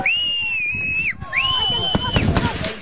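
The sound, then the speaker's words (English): A few sharp gunshot cracks as Israeli security forces fire at Palestinians near Tel village by Nablus amid chaos, clustered in the final second after a long, sustained high-pitched wailing tone. “Footage from the scene around Tel village shows chaos, with several people on the ground and Israeli security forces firing at Palestinians as more than a dozen gunshots are heard.”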